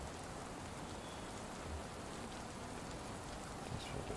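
Steady rain falls in a video game, a dense, even hiss that holds at the same level throughout with no voices or other sounds.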